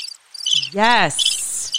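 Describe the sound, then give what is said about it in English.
Crickets chirping in high-pitched, pulsing trills that run through the whole moment, briefly overlapped by a single spoken word in the middle. “Yes, crickets. You hear that?”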